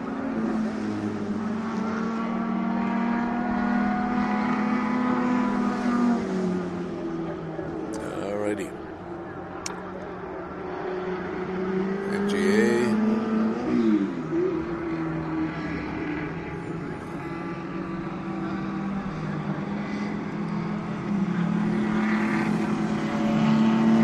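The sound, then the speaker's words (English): Little MG Midget race cars drive past at a race meeting, their engines rising into a few buzzing surges under nearly continuous talk. “Those are little MG midgets going by.”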